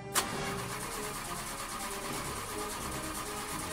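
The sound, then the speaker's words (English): A vehicle engine cranks as the ignition is turned: a short click, then a steady, loud, rough churning that runs unbroken for nearly four seconds without a clear change. “Hey, can I do the honors of cranking it? You can. Go ahead. Right, I'm going to turn ignition.”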